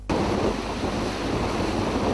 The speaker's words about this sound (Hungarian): Tarajos hullámok és viharos erejű hideg szél a Balatonnál.